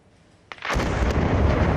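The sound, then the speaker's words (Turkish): A Palestinian house in Bitlu village, northwest of Jerusalem, is blown up with explosives by Israeli soldiers: one sudden loud blast, then a sustained, heavy rumbling roar of collapse and debris. “Patlayıcı yerleştirilen ev dakikalar içinde yerle bir oldu. Görüntüler Kudüs'ün kuzeybatısından. İsrail askerleri Bitlu beldesinde bir Filistinlinin evini havaya uçurdu.”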